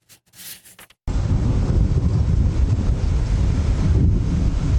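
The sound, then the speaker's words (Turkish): Wind from a giant tornado in France roars and buffets the microphone. After a brief quieter opening, a loud, dense rumble of gusts holds steady to the end. “Kocaman dev bir hortum çıktı. 100 eve hasar verdi. O hortumun görüntüleri bakın nasıl kaydedildi.”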